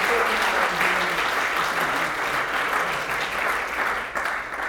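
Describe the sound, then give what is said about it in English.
Applause rises from an audience at a Christian gathering, a thick, sustained wash of clapping that stays loud and even before thinning slightly near the end. “So can we give a cheer for them in advance?”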